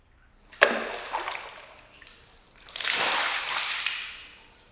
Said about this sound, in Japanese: 頭流しますので目をつぶってください。